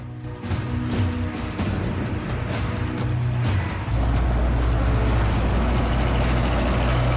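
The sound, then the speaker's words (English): Heavy vehicle engines from an armored personnel carrier and a multi-wheeled vehicle with a gun turret arriving, a deep continuous rumble that grows fuller and louder about halfway through. “Sam looks through the single-lensed binoculars and sees an armored personnel carrier arrive, followed by a multi-wheeled vehicle with a gun turret on top.”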